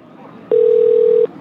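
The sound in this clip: Telephone tone during a call: a single steady, mid-pitched beep lasting under a second, rising suddenly out of faint background hiss and stopping just as abruptly.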